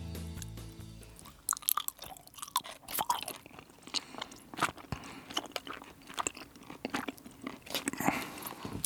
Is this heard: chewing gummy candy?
yes